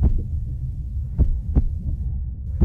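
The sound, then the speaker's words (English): A bus driver's heartbeat, after being yelled at, insulted and threatened, sounds as a few deep, muffled thuds over a continuous low throbbing hum, with no talking. “This is the sound of a bus driver's heart rate.”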